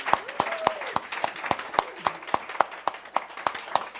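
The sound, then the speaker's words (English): Audience applause for the helpers, teachers and translators behind a gathering, heard as sharp, evenly spaced claps that keep a steady rhythm throughout. “Let's give them a big hand, huge hand.”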